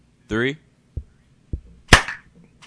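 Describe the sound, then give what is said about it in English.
An audience claps together on a count of three, making a few sharp, isolated clap sounds in near-silence. A brief voice is heard alongside them. “Let me get a clap from you on the count of three.”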